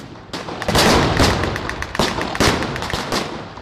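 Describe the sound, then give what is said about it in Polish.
A PPSh submachine gun firing at a battle reenactment: loud, dense bursts of rapid automatic fire crackling almost continuously, with sharp shot peaks rising out of the barrage. “Wiecie, jaki to karabin? Pepesza.”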